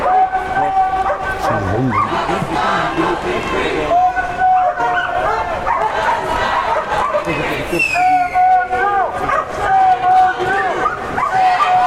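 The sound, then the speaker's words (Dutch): Police dogs bark behind a police line at a campus occupation protest: repeated loud barks, yips and whimpers from several dogs throughout, over a background of crowd voices and shouting. “achter de linie politie staat een hele linie met honden. Die hoor je misschien de hele tijd al”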